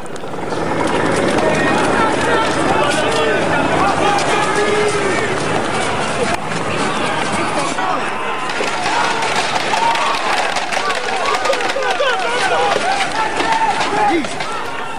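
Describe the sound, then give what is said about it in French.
Police charge a protest against police brutality. A loud, constant mix of crowd noise, shouting voices and hurried running movement continues throughout, with people talking and yelling over it. “Et ce que vous entendez, c'est l'intervention policière à la manifestation, l'offensive policière à la manifestation du collectif opposé à la brutalité policière.”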